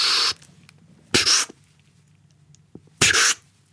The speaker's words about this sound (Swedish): Så att, hela tiden någon slags inandning? Ja, en väldigt kort inandning.